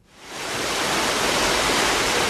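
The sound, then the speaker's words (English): A stream stair-steps down a gentle waterfall into a limestone pit in forested karst country in Alaska. The steady, hissing rush of water swells up over the first half second, then holds even and loud. “Jim Bechtel watches a stream stair-step its way down a gentle waterfall and into a limestone pit”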